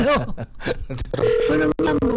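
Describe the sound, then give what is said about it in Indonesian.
Telephone line connecting on a long-distance call to America: brief voices at first, then steady electronic tones through the second half, broken once by a sharp click. “Si ini baru nyambung. Ya maklum kan sambungannya jauh ke Amerika.”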